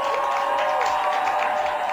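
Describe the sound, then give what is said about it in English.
Crowd applause and cheering for the Baltimore Ravens after their 24-18 win over the Titans, a continuous, even wash of clapping and crowd noise with a faint sustained tone running beneath. “Oh, let's give a round of applause for the Baltimore Ravens.”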